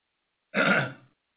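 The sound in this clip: A single short burp after drinking Coke: one throaty, rasping belch lasting about half a second, loud and alone against silence.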